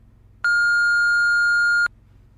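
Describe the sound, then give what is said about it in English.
Voicemail beep: a single steady, clear electronic tone lasting about a second and a half, sounding alone against faint background noise. “You have reached the voicemail of Bored. Please leave a message.”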